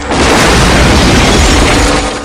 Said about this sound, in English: Fouchon takes aim and fires back, destroying a float in a shower of sparks.